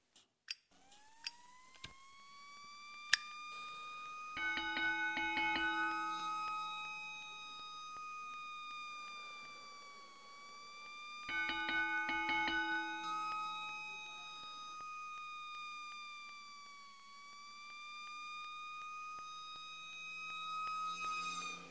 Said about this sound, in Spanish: ¿Con qué crees que acabará esta alarma?